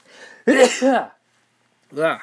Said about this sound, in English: Sneeze.